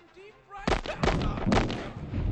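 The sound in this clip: Gunshots in a radio drama ring out as a few sharp, loud bursts in quick succession after a quieter opening, each blast spreading into a rough, booming tail.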